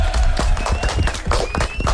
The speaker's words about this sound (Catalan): Molt bé. Aplaudiments.